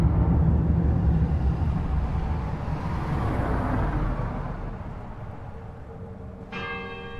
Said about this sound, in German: Ich fahre nach Bad Freienwalde, der Stadt an der Oder.